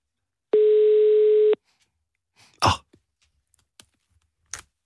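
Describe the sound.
A phone line rings on an outgoing call: one steady electronic ring tone lasting about a second, then silence broken by a few faint clicks and a brief throat-clearing-like noise.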